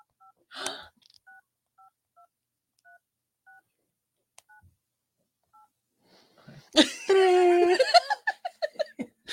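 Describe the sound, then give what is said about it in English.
A telephone number is dialed on a keypad, a series of short, evenly spaced electronic beeps in a quiet stretch, followed by giggling laughter and a voice. “Let me turn my sound on. Call Tony Khan. Let me call Tony Khan.”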